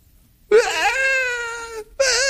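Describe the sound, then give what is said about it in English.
A voice imitates a three- or four-year-old boy crying in a tantrum: a long, loud, wavering wail followed by the start of a second one. “He opens it, he sets it aside, and he throws a tantrum.”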